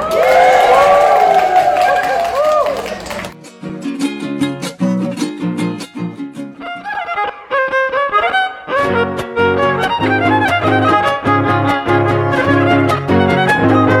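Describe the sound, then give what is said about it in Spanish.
Crowd cheering and applauding at a community radio station's 60th anniversary celebration: a dense, loud roar of clapping and shouts for about three seconds, then it breaks off abruptly as a different sound takes over. “¡Que se escuchen fuertes los aplausos!”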